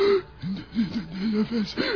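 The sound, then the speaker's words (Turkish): A man gasps and wheezes, unable to breathe, in an acted scene of a medical emergency. He makes several strained, voiced rasping gasps in quick succession. “Nefes alamıyorum. Doktor. Boğuluyorum.”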